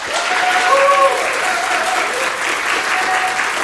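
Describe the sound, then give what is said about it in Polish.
Applause from a live concert crowd as a band's bass guitarist is introduced onstage: many hands clapping in a full, continuous burst that stays steady for the whole stretch. “Proszę, brawa.”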